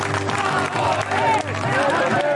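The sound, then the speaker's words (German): Crowd cheering for the arrival of the Hertha BSC team at a family summer festival at Olympiapark, marking the season opening: loud, continuous cheers and shouts with clapping mixed in, swelling slightly near the middle. “Es ist die Ankunft der Mannschaft, die den größten Jubel dieses Familiensommerfests im Olympiapark auslöst.”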